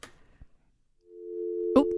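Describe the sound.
A phone line drops during a call-in, leaving a steady, mid-pitched telephone tone that begins halfway through and holds to the end. A brief click cuts across it, and faint, short voice fragments come before the tone.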